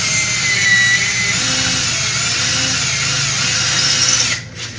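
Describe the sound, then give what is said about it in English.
A power drill bores pilot holes into a wall stud to mount a bracket for a 75-inch TV. It gives a steady, loud motor whine for about four seconds, then cuts off abruptly. “Now he's drilling the pilot holes.”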